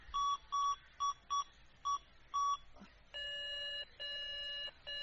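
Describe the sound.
A phone is dialed with six quick touch-tone beeps, then a busy signal answers as long, evenly repeated tones. The sounds are faint throughout, and no voices are heard.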